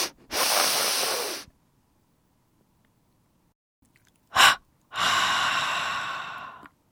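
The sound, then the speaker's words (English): Deep breathing during a body-tensing relaxation exercise: a long, airy breath, a brief sharp intake a few seconds later, then another long breath, each a soft, steady hiss separated by near silence. “Inhale and tense the body. Exhale. Again.”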